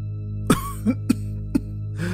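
An old man coughing in a dramatized horror tale, several short, harsh coughs in an uneven rhythm over a steady low hum.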